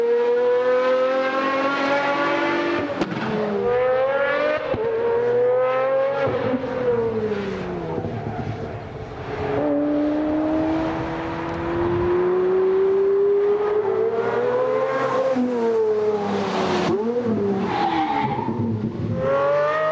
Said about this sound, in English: And the Pagani Zonda sounds amazeballs. Listen to this.